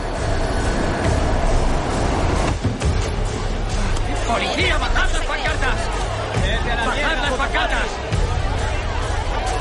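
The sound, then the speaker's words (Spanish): A subway train rumbles and rattles as it enters a tunnel in the film Joker (2019). A loud, steady roar carries sharp clanks, and passengers chatter beneath it. “El convoy entra en un túnel.”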